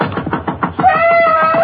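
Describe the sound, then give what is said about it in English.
Urgent knocking on the door of a house at night: a rapid series of loud, hard raps, followed by a sustained tonal sound. “He slips on a bathrobe and walks downstairs as the knocking continues.”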